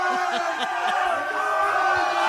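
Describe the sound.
Fans of the BYU Cougars cheer and whoop to welcome the college team home at the airport at 2:30 in the morning in 20-degree cold, a dense, continuous roar of many voices.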